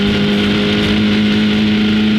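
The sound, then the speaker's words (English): Engine roar of the Bub 7 Streamliner during a land speed record attempt: a loud, steady, high-revving drone with a strong humming tone that holds for the whole stretch. “that the attempt at a land speed record. We got Valerie Thompson, and that was her wicked Bub 7 Streamliner.”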